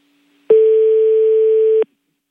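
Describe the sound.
Telephone busy tone after a call is cut off: a single steady, mid-pitched electronic beep lasting just over a second, heard alone against silence.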